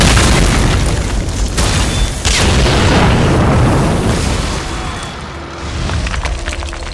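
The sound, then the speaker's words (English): Explosion of blasting charges set off in a deliberate demolition: a deep, loud blast whose rumbling roar stays heavy for several seconds, eases briefly, then swells again. “Just let me make sure the charges go on straight. There, we are go for blasting. Goggles! Blast away.”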